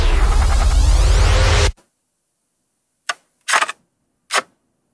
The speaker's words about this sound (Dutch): Doorklikken van een foto in een Viewmaster, zeg jij.